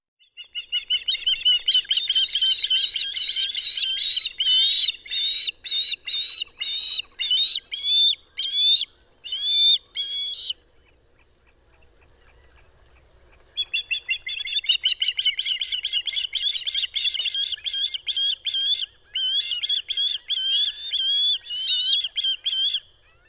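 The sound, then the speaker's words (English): An Eastern wood pewee sings high, clear whistled notes in rapid repeated series, forming two long runs separated by a pause of a few seconds, with no other sound. “Eastern wood pewee.”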